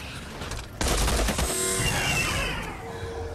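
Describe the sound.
Gunfire erupts on a devastated street during a violent battle. A sudden loud burst of shots swells into a dense, rattling barrage that slowly fades.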